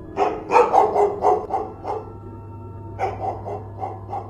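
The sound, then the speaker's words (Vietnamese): A small puppy barks rapidly at night inside a house, its sharp barks coming in two quick runs of many yelps separated by a short pause, fairly loud and with no voices. “Đáp lại Linh vẫn là tiếng chó sủa dồn dập ở trong đêm vang vọng. Tiếng con chó con có lẽ chỉ bằng nắm đấm, nhưng bây giờ nó cứ ồ ồ vang khắp cả nhà.”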